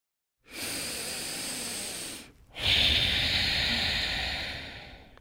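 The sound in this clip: A deep breath drawn in and let out: a long, airy inhale, a brief pause, then a louder, breathy exhale. No one speaks.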